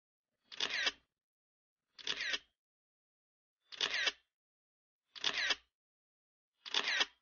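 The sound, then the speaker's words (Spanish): Five camera shutter clicks from a full-spectrum camera as photos are taken at the Hotel Eden, each a crisp mechanical snap, evenly spaced about a second and a half apart with silence between. “Ahora nosotros vamos a sacar varias fotos con esta movilización energética del discurso de Adolf Hitler, pero con la cámara de espectro completo.”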